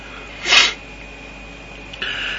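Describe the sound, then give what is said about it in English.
A single human sneeze: one short, sharp burst that stands out above a steady faint background hiss, with no talk around it. “I've been sneezing a lot since I've come back from holiday. Because it's cold here.”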